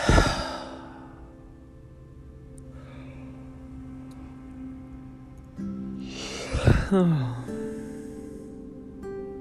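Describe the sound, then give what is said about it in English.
A deep breath during an online worship gathering: two breathy rushes, one at the start and a fuller one later, over a steady sustained musical drone. “why don't we just take a deep breath?”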